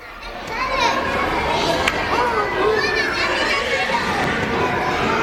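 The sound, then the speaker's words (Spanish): Children at play in a school playground fill the air with steady, lively shouting, squeals and chatter from many young voices overlapping. “Le pusieron un sonido de juegos en el patio”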